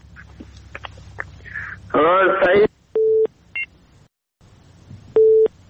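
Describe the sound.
Short electronic beep tones sound on a telephone line after a call drops. A few brief mid-pitched beeps come at uneven intervals and stand out from faint line hiss, with a short warbling burst before them.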